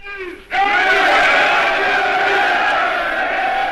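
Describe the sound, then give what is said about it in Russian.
A thunderous hurrah from a crowd packing the Smolny assembly hall bursts in after a short moment and holds as a loud, sustained roar of many voices. “Заполненный народом актовый зал Смольного, в Владимир Ильич входит под громовое «Ура!».”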